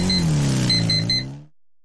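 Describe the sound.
A CF Moto Dual 230 motorcycle engine revs in a loud, steady droning note whose pitch sags slightly, then cuts off abruptly after about a second and a half, with no voices.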